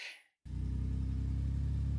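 A car cruises fast on a freeway with a steady low engine rumble and slight pulsing. It starts abruptly after a brief hiss and a moment of silence and then holds constant.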